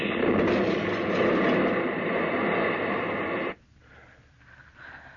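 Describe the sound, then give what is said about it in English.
A meteor crashes into a field with a loud, sustained roar for about three and a half seconds, then cuts off abruptly to a faint hiss. “A meteor. Must have landed out in the field there.”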